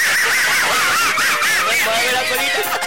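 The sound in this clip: A voice imitates a little duck with a stream of loud, nasal, wavering quacks that bend up and down in pitch.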